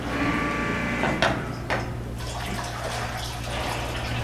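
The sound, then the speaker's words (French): Freshly pressed, high-strength sake flowing during brewing at a sake maker: a steady, watery splashing hiss with two brief louder gushes early on, over a constant low mechanical hum. “là, le son qu'on entend, c'est du saké qui coule. C'est ça. Il est beaucoup plus alcoolisé qu'il sera au final.”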